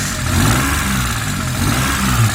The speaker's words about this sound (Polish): Posłuchajmy raz jeszcze silnika. Wszedł na wysokie obroty. Weszliśmy na wysokie obroty.